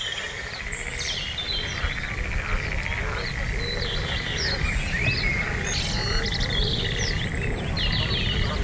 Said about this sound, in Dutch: Ja. Een kikker.